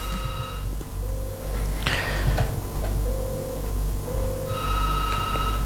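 Electronic telephone ringing from an incoming call: steady tonal ring bursts at the start and again near the end, with softer ring tones in between, all over a continuous loud background bed and with no talk.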